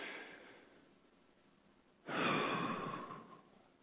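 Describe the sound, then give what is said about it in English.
A crowd of audience members blows out a deep breath together in unison: one broad, breathy whoosh that swells loudly and fades over about a second and a half, after a quieter stretch of soft breathing. “I'd like to ask everyone to join me in taking one deep breath and blow it out.”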